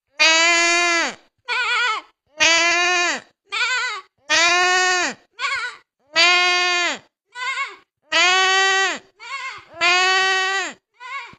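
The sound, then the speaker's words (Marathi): A human voice imitates a sheep bleating, giving many loud, wavering bleats in a regular series that alternates long and short calls, with brief silences between them. “आम्ही मेंढीचा आवाज काढून दाखवणार आहे.”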